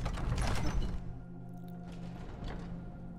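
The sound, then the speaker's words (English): Grinding mechanical rumble of a crypt door mechanism opening in a fantasy video game, loud for about a second, then settling into a low steady drone with faint clanks. “All right, we can open the Fall Gunther crypt.”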